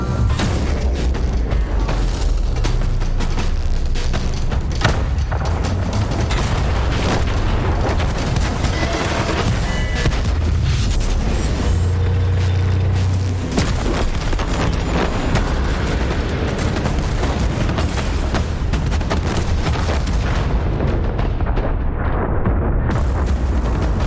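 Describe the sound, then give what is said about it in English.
Explosions and artillery fire from a World of Tanks video game trailer: dense, loud booms and blasts rumble almost without pause through the whole stretch, layered over a heavy low roar. “So for fun, I'm going to play the trailer. Credit to War Gaming and their YouTube channel, World of Tanks North America. And here's the video”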